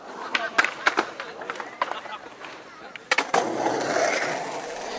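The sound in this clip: Skateboards scraping and crashing in Vigeland sculpture park, Oslo: a run of sharp clacks and impacts over rolling wheel noise, then a sustained rough rumble of rolling, with voices in the background.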